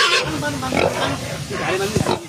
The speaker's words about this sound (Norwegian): Blant annet måtte folk redde en gris ut av den tykke gjørmen.